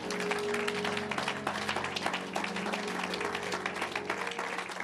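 An audience applauds the Lord during a French-language church service, a dense, continuous clatter of hand claps with sustained low tones running beneath.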